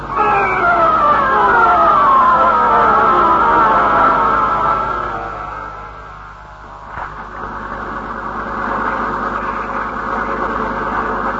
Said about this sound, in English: No, you can't hear anything over this motor.